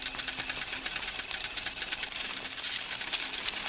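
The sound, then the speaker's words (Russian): Many coins pouring out of a slot machine as a jackpot pays out, a continuous bright metallic jangle and clatter that stays dense throughout. “Из отверстия выпадает большое количество монет. Ему выпал выигрыш.”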